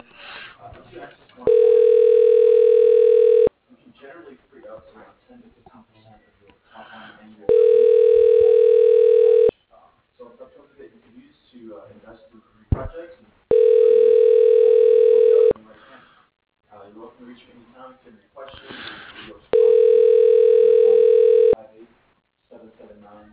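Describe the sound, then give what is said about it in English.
Telephone line tones play after an extension is dialed in a company employee directory: four long, steady mid-pitched tones of about two seconds each, separated by even pauses of faint line noise. “Dialing.”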